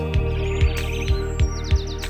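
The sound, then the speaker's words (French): A voice imitates chirping birds with quick high whistled chirps and sweeping tweets, set over steady sustained musical tones and a regular low thump that recurs about five times. “Les oiseaux font comme ça.”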